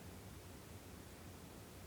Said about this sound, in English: The way it works, you have to record a few seconds of nothing, or room noise.